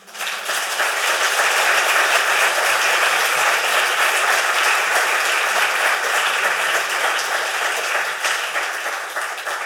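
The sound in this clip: Audience applause thanking the speakers after a panel discussion: a steady, sustained wash of many hands clapping, loud and even for the whole stretch.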